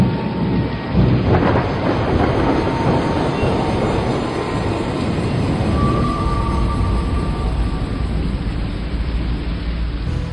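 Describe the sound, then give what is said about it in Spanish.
Thunder rumbles through a rainstorm as a loud, continuous roar that swells slightly near the start, then holds as a steady, dense wash of rain and low rumble. “el gran destello de un tardío relámpago, seguido de un estruendo ensordecedor, desgarraron los cielos abiertos.”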